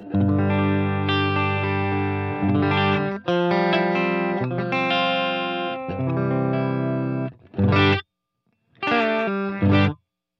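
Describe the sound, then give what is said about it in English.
Clean electric guitar chords from a blue Telecaster with a G bender, played through a delay and reverb pedal and a cabinet impulse response. Sustained ringing chords give way to a few short, separated strums at the end. “So right now I'm playing through a Telecaster, my blue Telecaster with my G bender.”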